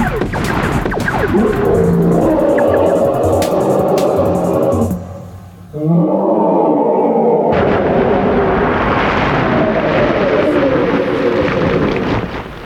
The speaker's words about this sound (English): I set my blaster to stun. That doesn't stop it. I set to demolish and let loose.